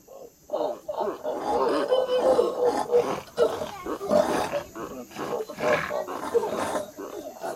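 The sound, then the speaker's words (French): A wild boar gives rough, throaty grunts and growls in a dense, loud run of harsh snorting calls that continues almost without pause. “Les enfants, que dit le sanglier sauvage ?”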